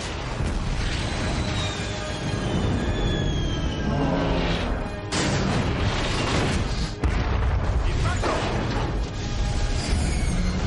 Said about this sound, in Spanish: El reactor explota inclinando la nave hacia el morro.